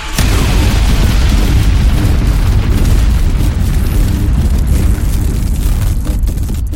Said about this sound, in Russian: Послышался звук запуска установки, и мгновение спустя раздался выстрел.